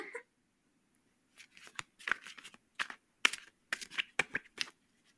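Tarot cards are shuffled during a reading: after a brief rustle and a pause, many crisp flicks and slaps of cards follow in an uneven rhythm.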